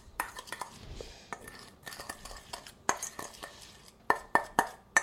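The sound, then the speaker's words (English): Stirring a dry spice mixture with sugar and nutmeg for roasted almonds. A spoon scrapes and ticks in a bowl with soft, irregular clinks, ending in a few sharper metallic taps. “And I'm gonna stir that up. And all the dry things, kind of mix them together.”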